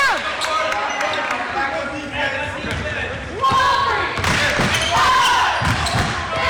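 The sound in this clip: A basketball is dribbled down the court during a game, with a series of sharp, bouncy thuds hitting the floor at an uneven pace, under continuous voices and crowd noise.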